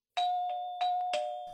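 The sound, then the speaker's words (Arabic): Doorbell ringing: a few bright, clear chime tones strike in quick succession, each ringing on and fading slightly. No voices accompany them. “دق جرس الباب”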